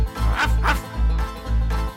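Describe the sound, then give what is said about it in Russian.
A dog barks in a few short, sharp bursts over a steady, bouncy musical backing with a deep bass pulse. “Собачка! Собачка гав-гав-гав.”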